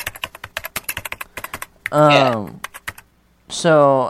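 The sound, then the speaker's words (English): Rapid typing on a computer keyboard, with many quick, irregular keystroke clicks. The tapping is broken by two short stretches of someone talking. “You're supposed to type on a computer”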